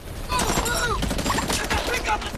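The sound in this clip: Gunfire from a battle scene in which soldiers shoot: many sharp, rapid shots in dense, irregular bursts that run loud through the whole clip.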